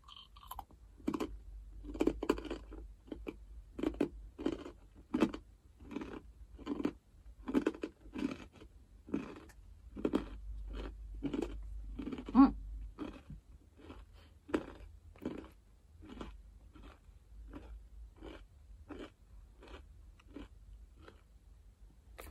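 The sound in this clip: Chewing food with soy sauce: many crisp, crunchy bites in a steady rhythm, each a short burst of crunch, with no voices.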